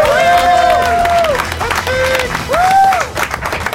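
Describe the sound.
A live audience applauds and cheers a guest on a show with steady, loud clapping. Sustained whooping cries rise above the clapping at several points.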